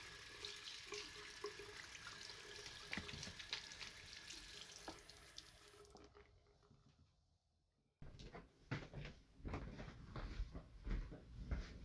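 Water runs from a tap during handwashing as a steady splashing hiss that fades out. After a short silence comes a louder stretch of irregular splashing and knocks.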